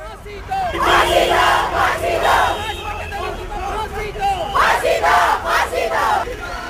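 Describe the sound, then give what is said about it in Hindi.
Students protesting at Lal Chowk, Srinagar, chant slogans in loud, rhythmic group shouts that come in two main waves, with crowd noise in between. “Kathua में हत्या और सामूहिक बलात्कार की 8 वर्षीय पीड़िता को इंसाफ दिलाने के लिए इस तरह के नारे आए श्रीनगर के लाल चौक में छात्रों और छात्राएं दे रही थी।”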